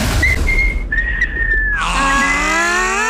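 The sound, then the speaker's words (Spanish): A person whistles on request: a short high note, then a held high tone, then a longer tone that slides gently downward. The whistling is clear and steady, with no talking over it. “A ver, póngase una silbadita, a ver,”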